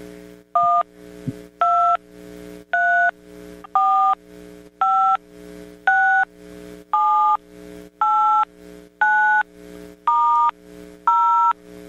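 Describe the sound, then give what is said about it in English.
Telephone dial pad tones from a 72-type keypad: eleven evenly spaced two-tone beeps, each held briefly with short silences between, over a faint low hum. “But this is the 72 type dial pad, which is not the one that has buttons that push in all the way. It just be a little click.”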